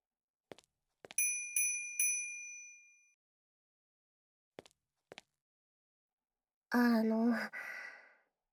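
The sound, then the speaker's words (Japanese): A service bell rings three times in quick succession to call staff, each bright metallic ding ringing on and decaying. A few soft clicks follow, then a long audible sigh at the end. “でしたら呼び止めるためにベルを鳴らすのはお控えください。”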